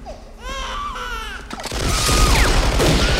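Gunfire in an action film scene: a wailing, baby-like cry gives way to a loud, dense burst of rapid shots with heavy low booms.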